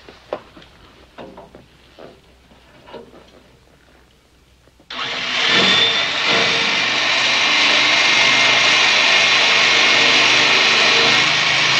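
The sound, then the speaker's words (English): Drilling through a barred vault gate below an electric I-beam: after a quiet stretch of faint shuffling, a loud, steady whirring drill noise starts abruptly midway and runs on without a break. “Downstairs, Paul and Louis slither on the floor below the electric I-beam and start the job of drilling through the barred vault gate.”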